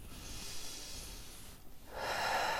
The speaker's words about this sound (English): let's start by taking three deep breaths